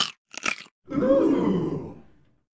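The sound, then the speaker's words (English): Biting into a crunchy pickle: two short crisp crunches followed by a long, low, drawn-out grunting vocal sound that fades away. “You just ate the pickle that warned me about becoming a pickle.”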